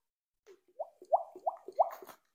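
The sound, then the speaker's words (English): A man's voice imitates a fish speaking underwater: a quick series of wet, bubbly plops and gurgles, each a short blip that bends upward in pitch, heard alone. “I don't know how a fish speaks, but they are underwater. So this is either a fish impression or a dying human. Here goes.”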